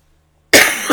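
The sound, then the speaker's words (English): A single sharp, loud cough breaks a silence, followed almost at once by a shorter second burst, with no talking. “sorry, I had to cough.”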